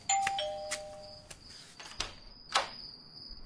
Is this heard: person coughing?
no